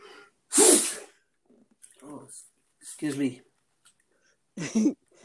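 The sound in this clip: One sharp, loud sneeze bursts out near the start. Quieter snatches of speech and breathing follow, separated by pauses.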